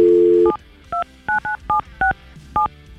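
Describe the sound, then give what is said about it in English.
A steady dial tone gives way to seven loud DTMF beeps as a telephone number is dialled. The short, clean keypad tones come at slightly uneven intervals. “let's see if she answers the phone and what she has to say.”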